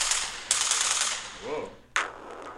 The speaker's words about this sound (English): And gun sounds.